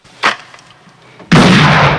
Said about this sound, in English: He loads it and shoots at the door.